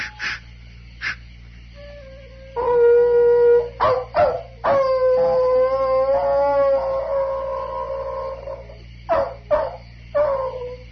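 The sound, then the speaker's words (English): Hounds howling and baying: a few short, sharp bays break up two long, wavering howls that hold steady at a mid pitch before fading. “you hear those hounds.”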